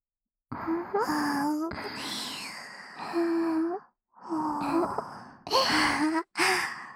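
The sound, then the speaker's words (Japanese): A big, drawn-out yawn made up of a few stretched, breathy vocal sounds with gliding pitch, fairly loud and broken by short pauses, with no talking over it. “おっきなあくびばーい。”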